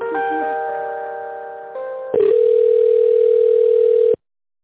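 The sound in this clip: Telephone line tones play while an office call is put through to another person. A steady chord of several tones comes first, then a single steady mid-pitched tone holds for about two seconds and cuts off abruptly. No one speaks.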